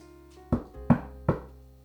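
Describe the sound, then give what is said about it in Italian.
Three firm knocks on a large door, evenly spaced and alone, each a hollow, resonant thud. “Batté sul portone e paf, comparve il maestro.”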